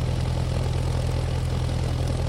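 A propeller airplane engine roars in flight as the aircraft circles above an island. The drone is loud, steady and unbroken, with no voices.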